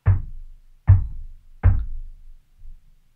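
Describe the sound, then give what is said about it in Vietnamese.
Knocking in a pattern: three heavy, low knocks in a steady rhythm, about a second apart, then a pause broken only by a faint, softer thud. “Tôi mô tả cái tiếng gõ cho anh chị em nghe. Dừng. Gõ 3 tiếng thế dừng.”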